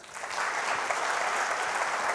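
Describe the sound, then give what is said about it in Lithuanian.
Audience applause welcoming a guest onto a talk show: dense, continuous clapping that swells quickly at the start and holds at a steady, even level throughout, with no voices over it. “Pasitikime šiltais plojimais.”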